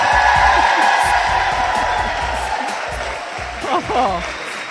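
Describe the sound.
Studio audience applause and cheering at a live food conversation event with a celebrity chef, a steady wash of clapping running throughout beneath someone talking.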